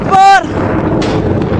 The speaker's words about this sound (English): Amateur footage from Syria captures the moment a shell hits a residential area in Hamoya.